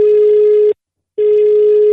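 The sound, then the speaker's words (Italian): A telephone ringing tone on the line as a call goes through: a loud, steady electronic tone at one fixed pitch, cut by a short silence before the next long tone begins. “il telefono sta per squillare”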